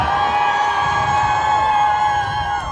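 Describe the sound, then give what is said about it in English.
An audience applauds and cheers for a speaker at a public school-board candidate event, producing a dense, steady roar of crowd noise with whoops that holds at the same level throughout. “All right, give them another round of applause.”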